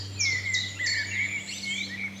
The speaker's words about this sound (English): It's mainly blackbirds.